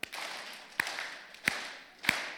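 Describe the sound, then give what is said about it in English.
A church audience claps hands together on cue, making four sharp, separate claps at an even, unhurried pace with short decays between them. “Clapping before the Lord, right? He is good.”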